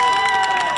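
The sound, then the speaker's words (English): Dense, continuous clatter of handheld maple-leaf clapper noisemakers made of recycled material, shaken by fans cheering the Canadian team at the World Cup, blending into a steady crowd roar with no clear gaps. “That's not the sound of sports fans clapping. That's the sound of their Canadian clappers clapping for the Canadian team at the World Cup.”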